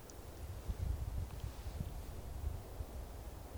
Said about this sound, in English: they would listen to the wind as it goes through the trees, and they would learn their songs by listening to the wind. And I think you can still hear it today.